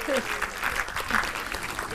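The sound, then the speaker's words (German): An audience applauds a newly dating couple: continuous dense clapping throughout, with voices briefly heard over it. “Es gibt einen Applaus für euch.”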